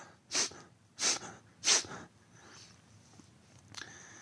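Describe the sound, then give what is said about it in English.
Three sharp, forceful nasal exhalations puff out at an even pace, driven by abdominal contractions in a breathing exercise, followed by quieter, softer breathing. “Use your abdomen to control the breath. So down near the belly button, and you simply pull the navel to expel the air and then relax it to inhale. So it kind of sounds like this.”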